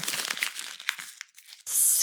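Paper sketches of a maze blueprint crinkle and rustle as they are unfolded and handled: a run of crisp crackles that thins out briefly, then a sudden loud burst of hissing rustle at the end.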